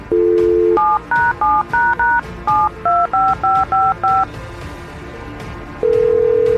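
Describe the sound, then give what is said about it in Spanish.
Telephone keypad tones as a number is dialed: a steady tone, then about ten short two-tone beeps in a quick, even rhythm, then a long steady tone. There is no talking. “Vamos a marcar.”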